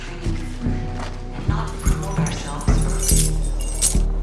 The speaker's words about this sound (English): Toby tosses the keys to Will.